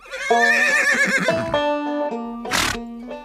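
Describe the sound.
A Prussian cuirassier's horse neighs: a loud, shaky, high whinny that wavers, then drops into lower steady tones, and ends with a short breathy blast.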